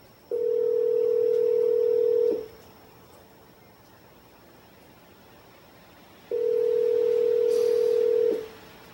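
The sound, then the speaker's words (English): Ringback tone of an outgoing telephone call to a hotline: two long, steady, mid-pitched buzzing rings of about two seconds each, separated by roughly four seconds of quiet hiss. “It's ringing. It does ring a few times. You have to stay with it. Don't give up.”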